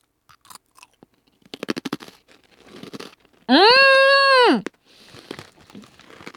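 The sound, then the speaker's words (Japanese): Someone bites and chews a broken piece of hard, crunchy biscuit, making a run of sharp, faint crackling crunches, then a short hummed vocal sound and a few more quiet chewing crunches. “この音でビスケットの硬さ伝わります？結構バリッとする”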